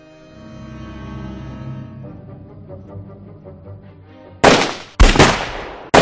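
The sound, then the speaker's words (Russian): Soldiers firing gunshots in volleys: a sustained tonal musical passage gives way to a few sharp, loud cracking shots in quick succession. “Первые выстрелы прозвучали слегка в разнобой, зато потом господа военные начали палить чуть ли не залпами.”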